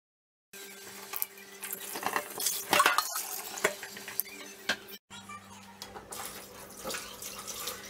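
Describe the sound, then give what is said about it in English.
Sorrel is washed under running tap water, a faint, steady splashing rush with a brief break partway through before the flow resumes. “Wash the sorrel properly and then set it aside.”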